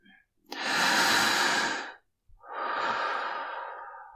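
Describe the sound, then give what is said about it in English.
Deep, slow breathing: a long, strong breath followed by a softer, sighing breath that fades away, both airy and clear against silence. “Try to take deep breaths, baby. Just like that.”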